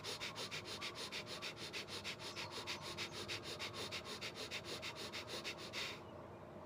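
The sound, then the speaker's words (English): Rapid, shallow breath-of-fire breathing, a fast even train of many short forceful puffs at about five per second that stops abruptly into quiet. “Now you have the good old-fashioned dragon breath. Some may call it hyperventilating, but it looks and sounds like this.”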